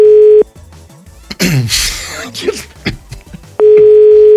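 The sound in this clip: Two bursts of a steady telephone ringing tone on an outgoing call, one at the very start and another at the end, with a louder, noisy burst of other sound filling the gap between them.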